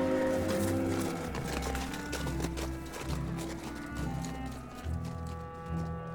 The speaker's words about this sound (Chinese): 一开始到市集里的商人们再次骑着骆驼离开这里。